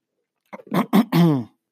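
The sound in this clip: Throat clearing from someone whose throat keeps acting up when talking, a few short rasping bursts ending in a longer voiced rasp, sharp and isolated, with no speech.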